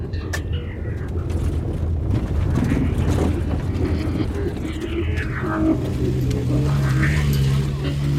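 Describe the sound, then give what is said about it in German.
The engine of a red off-road vehicle drones as it climbs curve after curve up a bare hill, a steady low rumble mixed with wind noise that stays at an even level throughout. “Kurve um Kurve klettert der rote Geländewagen einen kahlen Hügel hinauf”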